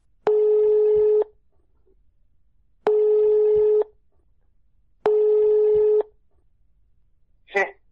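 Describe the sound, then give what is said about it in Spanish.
Ringback tones of a telephone call sound three times as long, even buzzing tones separated by regular pauses, followed by a brief different burst at the end. “Y como no vivimos cerca, me la ha contado a través de una llamada telefónica.”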